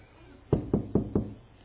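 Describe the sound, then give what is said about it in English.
Polite knocking on a door: four evenly spaced, crisp knocks, moderately loud against a quiet background. “knocks on the door, very polite.”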